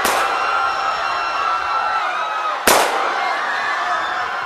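A gunshot in an audio drama set in a bar: one sharp, loud crack cuts through a dense, noisy background partway through.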